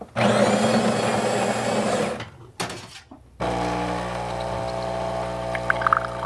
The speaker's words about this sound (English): Put into the machine. The machine grinds the coffee and makes the coffee right away.